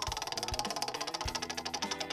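A small prize wheel spins with rapid, even mechanical ticking that keeps a steady rhythm throughout. It is faint, with a few soft low thumps among the clicks.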